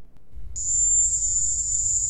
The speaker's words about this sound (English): Sounds familiar to me. Sounds like bugs. Sounds like bugs. Probably bugs.